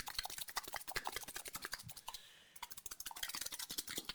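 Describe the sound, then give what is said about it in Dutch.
A soft drink can shaken hard to loosen the sugar gives many rapid, crackly bursts in a quick, uneven rhythm, with a brief lull midway before the shaking resumes. “Maar voordat we dat kunnen doen, moeten we de suiker even losschudden. Dus ik ga jou even vragen, geen eetgeluiden nu, maar gewoon even jouw blikje ook ah. even goed los te schudden.”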